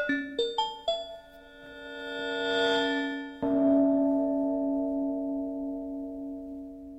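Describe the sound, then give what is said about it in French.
Synthesized gong-like bell tones open an electronic music piece: three quick struck attacks, then a swelling rise. One strong gong strike follows, and its bright, steady partials ring on and slowly fade, with no voices. “Oui, parce que normalement, un gong a son propre timbre, qui n'est pas forcément dans l'écho des accords précédents. Et là c'est le cas, parce que vous êtes entré dans la matière sonore. C'est le tout début de Mutation, on écoute.”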